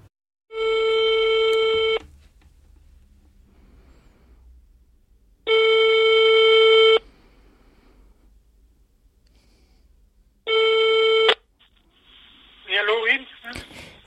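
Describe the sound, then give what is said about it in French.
Telephone call being placed: three long, steady buzzing ring tones separated by pauses of several seconds, followed by a brief voice on the line at the end. “Aujourd'hui, premier épisode, on passe un coup de fil.”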